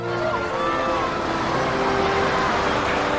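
A car being driven to a school gives off a steady, even hum of engine and road noise that holds level throughout, with faint whining tones above it.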